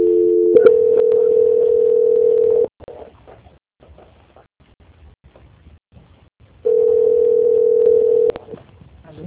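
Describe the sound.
Steady telephone tone heard while a call is being transferred: a long, even, mid-pitched tone holds for about two seconds, then a quiet gap of faint line noise, then the same tone returns for a second stretch and cuts off.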